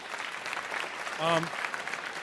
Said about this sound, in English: you should give yourselves a round of applause for being here and for taking part in this tonight